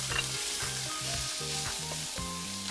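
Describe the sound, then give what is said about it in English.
Loud, steady sizzling of beef sautéing with garlic in a hot pan for a Thai beef curry, a continuous frying hiss that runs unbroken through the whole stretch. “and quickly saute a little bit of garlic to give the beef a little bit of flavor. And then we'll just go ahead and start sauteing our beef.”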